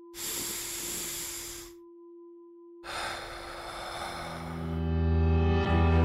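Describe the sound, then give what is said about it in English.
A deep breath is drawn in and let out as two long, airy hisses with a brief pause between them. A faint steady tone runs underneath, and low sustained tones join during the longer second breath. “Let's take a deep breath. Wherever you are, feel those ribs expand, that chest lift towards your chin. Let's do it now.”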